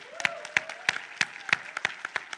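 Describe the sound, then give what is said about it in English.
Scattered hand claps from an audience applauding guests at a church gathering, a few sharp irregular claps at an uneven rhythm over a faint murmur of voices. “Can we give all of our guests a hand clap?”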